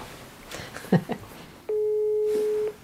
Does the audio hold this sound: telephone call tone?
yes